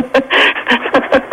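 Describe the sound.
Panting from a dog with a broken leg: several quick, rhythmic breaths in a steady huffing pattern, fairly loud and with no other sound around them.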